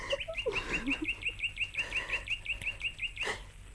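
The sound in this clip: A small sparrow-like bird chirps in a long, rapid, evenly spaced series of short, high notes, many in a row, with a few lower calls near the start.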